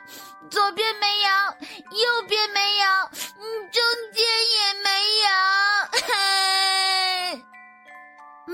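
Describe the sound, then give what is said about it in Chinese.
A child crying in long, high, wavering wails, loud and sobbing, broken into several drawn-out bursts with short catches of breath between them. No other voices are heard. “突然小袋鼠哭了”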